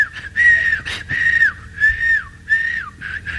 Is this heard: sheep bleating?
no